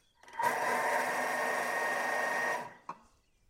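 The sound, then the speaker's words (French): A food processor blends speculoos biscuits with butter in one steady, loud whirring burst of about two seconds, then cuts out, followed by a brief knock. “Et c'est parti, je vais remixer un coup rapidement, c'est juste pour incorporer le beurre dedans.”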